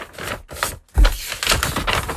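A paper envelope is torn open during a game of picking a red or green envelope: a few crisp, papery ripping bursts with a sharp thump near the middle, and no talk.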